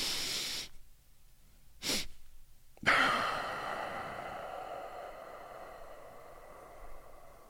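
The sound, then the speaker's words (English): Two brief, sharp inhales through the nose, the second short and quick, then a long, breathy exhale through the mouth that holds steady and slowly fades over several seconds. “it's two inhales followed by an extended exhale, and it goes like this.”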